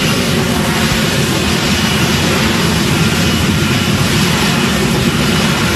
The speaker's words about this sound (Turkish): Bir F-35 savaş uçağı Beyaz Saray'a yakın konumdaki Jefferson Anıtı çevresinde alçak irtifada uçarken görüntülendi.